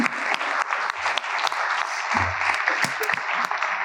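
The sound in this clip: Applause from a church audience welcoming a speaker to the front, a steady, dense patter of many hands clapping that holds at an even level throughout with no voices standing out.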